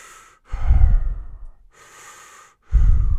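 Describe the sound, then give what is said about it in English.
Breathing close by a man's right ear: a few heavy, rasping breaths in and out, with two loud breaths separated by a softer one, heard alone with short pauses between them. “by his right ear, he heard the sound of breathing”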